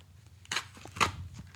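A stapled, taped paper envelope is torn open by hand, giving two short, crisp ripping bursts with faint rustling between them, quiet overall.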